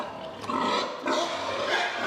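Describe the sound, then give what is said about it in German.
Young sows grunt and squeal while feeding in individual feeding stalls. The noise is rough, continuous and fairly loud, swelling in two surges. “In dieser Herde sind viele junge, ungestüme Sauen. Deshalb sind sie beim Fressen in Einzelboxen. Freunde, bleibt mal ein bisschen locker hier.”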